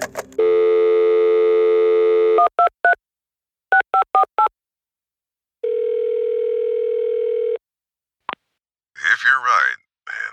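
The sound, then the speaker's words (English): A telephone number is dialed on a keypad: a steady dial tone, then quick runs of short keypad beeps in two groups, a longer ringing tone, a single click, and a voice briefly speaking at the end. “I'm calling Sheriff Holden.”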